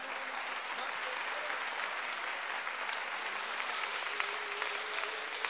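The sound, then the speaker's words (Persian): An audience claps hands in a steady, continuous patter of many overlapping claps, fairly faint, beneath a voice and music. “ما دست بزن ببینم”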